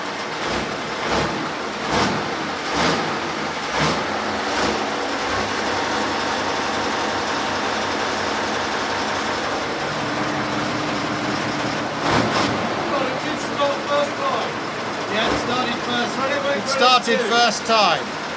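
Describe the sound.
A Russian tank being driven gives a steady, loud, low engine rumble with intermittent knocks and rattling jolts, while people talk over it throughout.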